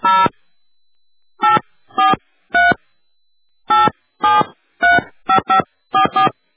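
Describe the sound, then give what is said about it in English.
Telephone keypad tones sound as a number is dialed after pressing 0 on an automated calling line. Many short, clean beeps come in quick, uneven groups separated by silent gaps, with no voices. “Please dial 0 plus the only starting number you wish to call now.”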